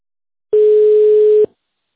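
A single steady telephone tone follows an automated menu prompt on a phone line. The loud, mid-pitched beep lasts just under a second, starts and stops sharply and stands alone in silence.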